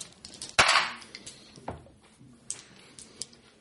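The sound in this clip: Dice rolling on a table in a tabletop game, one sharp loud clack followed by a few lighter clicks as they settle.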